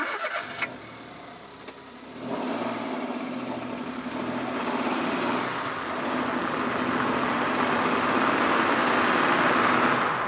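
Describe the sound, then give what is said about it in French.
A car engine cranks and catches after a quiet start, then settles into a steady mid-pitched running hum that swells slightly louder toward the end. “Oui, c'est le son d'une voiture.”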